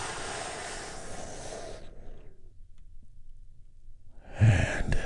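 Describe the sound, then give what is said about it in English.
A big, deep breath drawn in together at the start of a guided relaxation, followed by a soft release: a faint breathy hiss for about two seconds, a quiet pause, then the exhale starting near the end. “we begin by taking a big, deep, healing breath all together. Here we go.”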